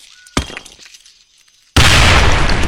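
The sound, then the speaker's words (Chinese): A hand grenade explodes nearby in a science-fiction drama: a sharp crack, a stretch of faint, scattered noise, then a sudden loud, roaring blast that holds steady to the end. “你怎么丢手雷这么近？”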